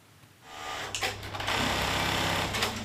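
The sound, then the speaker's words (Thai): Sewing machine whirring in a factory as workers stitch fabric into heat- and spark-protective work suits, starting after a quiet moment and then running continuously with a steady high mechanical buzz. “คนงานกว่า10คนนำผ้าที่ตัดเย็บเพื่อประกอบเป็นชุดป้องกันความร้อนและประกายไฟซึ่งส่วนใหญ่ใช้ในโรงงานอุตสาหกรรม”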